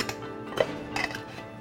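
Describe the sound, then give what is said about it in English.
Loose chocolate velvet tea goes into an old-fashioned scale, giving a few faint clinks and soft rattling taps spread across a quiet stretch. “So, if you are interested in obtaining some of our wonderful chocolate velvet tea, 2 ounces of it, we would pour it into this old-fashioned scale. Find the balance point,”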